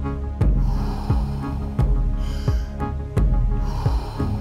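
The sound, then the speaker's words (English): Deep circular breathing during a guided breathwork round: forceful, rhythmic breaths, each opening with a sharp snort-like rush of air. Several even cycles follow one after another at a steady pace. “Fully in, let it go. Nice, deep, circular breaths.”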